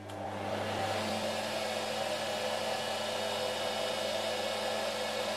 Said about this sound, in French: l'assemblage des solitaires, le fil définitif, va se faire sur la machine suivante qu'on appelle la retordeuse.